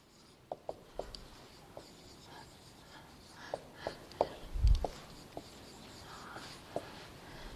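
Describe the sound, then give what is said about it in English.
Writing on a board during a lecture: many short, scratchy strokes and taps in an irregular rhythm, faint and close together, with a slightly louder cluster near the middle. “I'm trying to write bigger. The TA and several others said that they can't read it in the back, so if I get small, I'll try to remember resize it again.”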